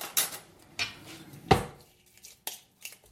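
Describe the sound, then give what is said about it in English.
A lid clatters onto a pot holding a flour-and-water mixture: a few short metallic clanks, the loudest near the middle, with quieter knocks before and after. “And putting a lid on it.”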